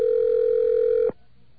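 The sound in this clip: Telephone dial tone while dialing into voicemail: a steady, loud single-pitched tone holds for about a second, then cuts off abruptly, leaving faint background hiss.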